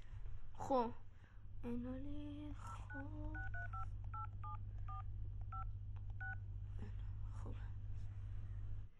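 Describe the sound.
Telephone keypad dialing to call someone, a quick series of paired electronic beeps at a steady pace, following a short stretch of quiet voices, over a constant low hum.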